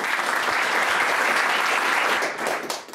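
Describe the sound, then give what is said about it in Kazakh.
A live show audience applauds with dense, steady clapping that stays loud, then thins and fades near the end. “ал шапалақтарыңды тоқтатпаңдар”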